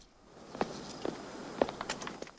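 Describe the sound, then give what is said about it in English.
Footsteps of someone who has climbed out of a car and is walking to a house porch: a few soft, irregularly spaced steps, faint and heard alone. “climbs out and walks to the porchway”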